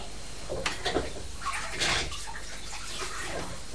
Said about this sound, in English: I'm going to put some of these things into the dishwasher. Just wash it.